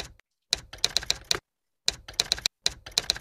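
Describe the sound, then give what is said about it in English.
Rapid keystrokes on a computer keyboard while entering text into an edit box, arriving in short bursts of crisp clicks separated by brief pauses, with no voices. “So I just pressed enter to go into this edit box. Now I'm going to type in.”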